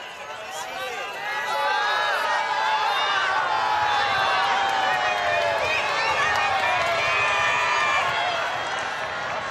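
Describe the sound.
Dense crowd of faithful on St. Peter's Square at a papal general audience, as the pope rides through the aisles in an open vehicle greeting them: a steady, loud wash of many voices murmuring and calling out throughout.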